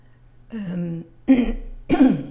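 Throat clearing from someone with a tickle in the throat: three rough, voiced bursts, the first drawn out and the next two sharper, over a steady low hum with no speech.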